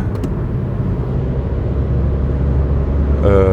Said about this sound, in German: jetzt muss ich mal eben schnell überholen.